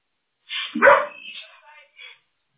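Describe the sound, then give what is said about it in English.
A dog barks and yips in a quick run of a few sharp, vocal-sounding calls. The first calls are loudest, and the later ones trail off into fainter yips. “Please excuse my dog. Believe it or not, I picked the quiet one out of the litter. He is the most talkative dog we have ever owned”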